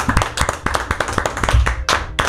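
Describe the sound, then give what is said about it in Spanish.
A room full of hands clapping in applause for a guest, a quick uneven run of many sharp claps. It stays fairly loud and fills the whole clip with no talking over it. “Se merece un aplauso porque no ha interrumpido negativamente este segmento. Un aplauso a Magda.”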